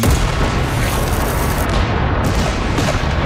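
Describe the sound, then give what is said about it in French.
A cannon battery firing in a dense, continuous roar of heavy booms with no separate shots standing out, loud and unbroken from start to finish. “Wolfe va faire installer ses batteries de canon sur la rive adjacente. Maintenant, nous allons montrer à ces scélérats comment faire la guerre comme des gentils hommes. Feu à volonté!”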